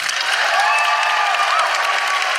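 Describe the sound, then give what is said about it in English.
Audience applause for a guest at a live comedy show, a steady, dense wash of many hands clapping that holds at an even level from start to finish. “And can I please have a huge round of applause for Chanel Miller.”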